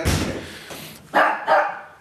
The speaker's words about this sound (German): Ist das der Schlosshund? Das ist der Kleine. Den Großen haben wir nicht hier.